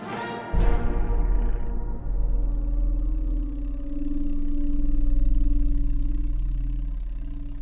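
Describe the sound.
Airplane engine droning in flight, a steady low hum with tonal overtones that holds throughout and swells slightly in loudness midway, following a brief higher tone at the very start.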